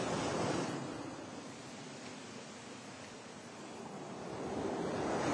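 Sea waves wash onto a beach in a steady, broad rush that swells louder at the start and again toward the end, with no voices.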